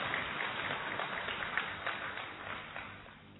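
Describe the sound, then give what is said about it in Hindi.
Applause welcomes a speaker at a spiritual gathering: steady, dense clapping from a crowd that holds a fairly even level and thins slightly toward the end. “हम सभी करतल ध्वनि के साथ भाई साहब का स्वागत करते हैं।”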